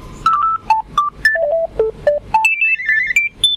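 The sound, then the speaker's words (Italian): A telephone rings while someone waits, its electronic ringtone playing as a brisk melody of many short, bright tones that jump up and down in pitch, loud and alone. “sembra che adesso il telefono forse stia iniziando un po' a squillare.”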